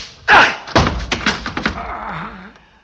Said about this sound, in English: Just a chop on the neck. Enough to put him out for a while.